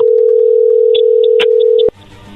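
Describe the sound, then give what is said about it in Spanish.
A telephone dial tone for an outgoing call hums steadily as several short keypad beeps sound over it, then it cuts off abruptly, leaving faint low noise. “Vamos a marcarle a Endra y vamos a ver si te manda los chocolates”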